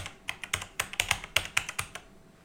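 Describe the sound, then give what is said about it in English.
Typing on a computer keyboard to enter a title in a book cover design app: many quick, crisp key clicks in an uneven rhythm, alone and fairly faint, tapering off at the end. “I'm going to click on the title again. And add new title. And here, I'm going to type unabridged.”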